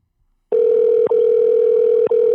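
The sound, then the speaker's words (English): A telephone tone sounds while a call is placed to someone. It is a single loud, even pitch that starts abruptly and cuts out briefly twice. “About to call him and see.”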